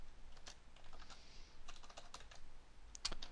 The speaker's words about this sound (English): I can just type this one by hand.